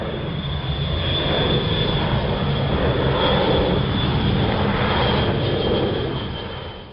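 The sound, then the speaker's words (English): An Edgley Optica light aircraft's engine drones steadily in flight, a loud, even roar that hardly changes and eases slightly at the very end, with no talking. “Tim, really lucky to have gone up in an Edgley Optica. As we mentioned earlier, it's one of those aircraft that certainly I've seen through my aviation interest”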